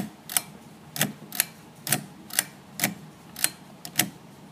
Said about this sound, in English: That was the sound of my lamp turning on and off.